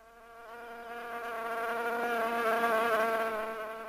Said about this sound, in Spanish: Oh, no. Una mosca. La puta madre. ¿Dónde está el raid? ¿Dónde está el raid? Ah, aléjate de la sopa, mosca. Vete.